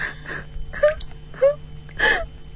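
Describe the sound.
A woman sobs loudly in wavering, moaning wails, with three stronger cries rising out of quieter whimpering breaths.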